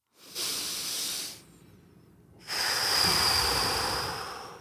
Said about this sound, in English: I definitely feel better after the breath.